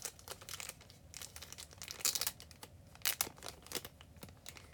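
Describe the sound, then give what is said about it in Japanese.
Wrapping crinkles as a package is opened, a quiet run of irregular crackles and rustles broken by a few sharper, louder bursts of crumpling. “よいしょ、今ここで開封しちゃいますね。”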